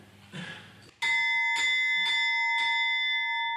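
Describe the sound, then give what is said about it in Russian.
A bell rung for an arati ritual, struck about four or five times in a steady rhythm. Each strike gives a bright, loud, sustained metallic ring that carries through to the end after a quieter opening. “Now you ring the bell.”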